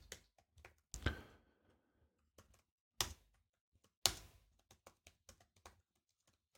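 Typing on a computer keyboard while entering a systemd unit description into a file: irregular clicking keystrokes, mostly light, with a few noticeably louder bursts of taps.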